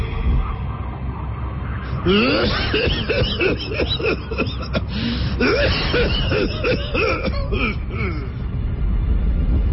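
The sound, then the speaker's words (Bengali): A voice imitates a stranger's bizarre fit of coughing, a long run of many rapid, sputtering coughs and gasping, squeaky vocal sounds with no pause between them. “নানা বিদঘুটে অদ্ভুত আওয়াজে কাশতে শুরু করল আগন্তক”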